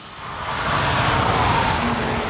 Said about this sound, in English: What you hear is the roar of Nissan's passion for performance. What you see is its ultimate physical expression, the all-new Nissan GT-R.